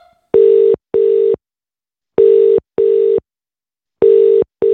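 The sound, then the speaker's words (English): Ringing tone on a telephone call being dialled, three pairs of short, steady buzzing tones in a repeating double-ring rhythm, each pair separated by a silent pause, with no voices. “I'm dialing the first number.”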